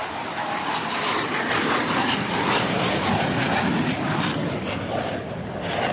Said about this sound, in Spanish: Si ahora mismo no me oyes, es porque está despegando un F-16 y es muy posible que el ruido me impida escucharte.